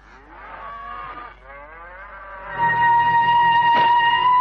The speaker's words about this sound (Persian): صدای گاوا از اون طرف داره میاد. گاوا حتما الان لبه پرتگاه هم.